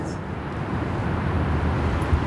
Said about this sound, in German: hier ist ein bisschen weniger Verkehr. Also zumindest, wo wir jetzt hier stehen.